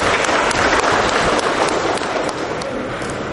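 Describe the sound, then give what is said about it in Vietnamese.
Applause from a crowd at a religious gathering, a dense and steady clatter of many hands clapping at an even, fairly loud level throughout. “Rồi chúng ta cho một tràng pháo tay mời bạn đó coi.”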